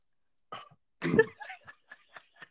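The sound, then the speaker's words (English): A person clears their throat, first a soft rasp and then a stronger, gravelly clearing followed by several short, quieter throaty catches, all faint and with no speech. “Sorry, something was just in my throat. I just had to clear.”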